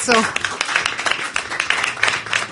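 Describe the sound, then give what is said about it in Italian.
Audience applause at a live comedy show: dense, steady clapping that fills the whole moment, with a voice heard over it at the start. “Grazie, un applauso.”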